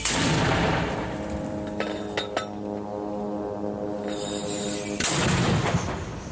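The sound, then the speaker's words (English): Mortar shells fired by militants at forces in Gaza: heavy booming blasts at the start and again near the end, with sharp metallic clinks and lingering ringing tones between them. “Hamas released a video on Saturday, and they say it shows its militants firing mortar shells at Israeli forces in Gaza.”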